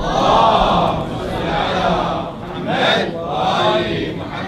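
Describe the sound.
Audience voices recite salawat together in response at a majlis gathering: a loud, dense murmur of many people chanting in unison, swelling and easing over a few phrases.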